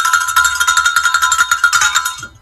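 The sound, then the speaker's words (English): A bell rung rapidly, giving bright metallic clangs in a fast, even rhythm. Many strikes follow one another for about two seconds before the ringing stops abruptly. “You already did the bell, so ring the bell and take it away.”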